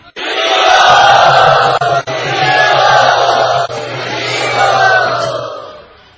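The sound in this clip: An audience at a yatra gathering loudly and enthusiastically cheering and whooping to welcome two guests. The roar is dense and sustained for about six seconds, with a couple of brief dips.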